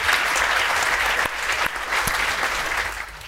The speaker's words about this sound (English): I ask you all to give them a very warm welcome.